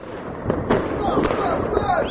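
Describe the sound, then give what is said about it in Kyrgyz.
Chinese colorful fireworks bursting late at night in Bishkek: a few sharp cracks and pops over a dense, rumbling background, with faint voices beneath. “Бишкекте түнкү саат 11:00 баштап эле Кытайдын кооз түстүү жардыргычтары тарсылдап жарылып турду.”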